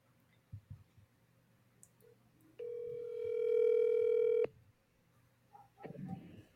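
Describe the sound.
A steady telephone tone of about two seconds sounds as a call is placed to a waiting caller, preceded by faint clicks and followed by brief soft noise.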